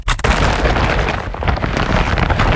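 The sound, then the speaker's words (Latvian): A dropped IKEA shopping bag full of clearance goods gives a few sharp impacts at the start. A long, loud, heavy crashing rumble follows and holds steady to the end. “Dzirdi? Tā skan IKEA iepirkuma maisa ar izpirkšanas precēm.”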